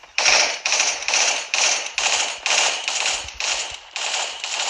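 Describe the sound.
Video-game gunfire rings out while enemies are being shot, a rapid, evenly spaced series of loud, harsh bursts. The shots repeat in a steady rhythm with no voices over them.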